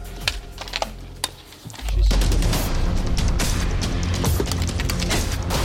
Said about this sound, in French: Allez, si vous êtes prêts, vous sortez votre arme et vous tirez 2 cartouches.